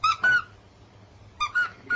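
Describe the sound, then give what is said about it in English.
A squeaky toy alligator squeaks five times in two bursts, with two quick, bright, high-pitched squeaks, a pause, and then three more. “Does he squeak? Does he go squeak, squeak? Squeak, squeak, squeak.”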